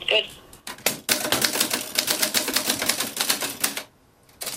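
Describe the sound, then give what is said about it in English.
Typing on a keyboard: a rapid, steady patter of many keystrokes that runs for several seconds, stops briefly near the end, then resumes. “You'll hear some typing sounds”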